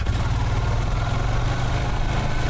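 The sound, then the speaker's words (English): The engine of a quad bike used to reach fields of Christmas trees. It makes a steady, loud, low rumbling drone that stays constant without any revving. “To get to the main fields of trees, he takes a quad bike.”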